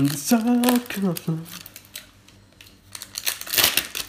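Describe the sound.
Glued packaging holding collectible figures is torn open, with scratchy bursts of ripping and crinkling that grow busier toward the end, after a voice briefly sounds at the start.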